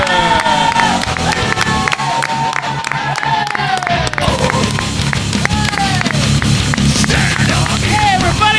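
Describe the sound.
Loud audience cheering and applause at a live comedy show as the host comes on stage, dense continuous clapping mixed with whoops and shouts throughout.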